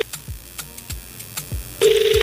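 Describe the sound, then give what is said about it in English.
A ringback tone sounds on an outgoing phone call to a prize winner, one steady mid-pitched burst near the end after a quiet stretch with faint background thumps. “So now, remember, we are actually calling our winner, and I hope that they pick up.”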